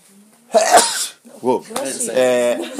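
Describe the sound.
A single sharp sneeze bursts out loudly, then people talk in the moments after it.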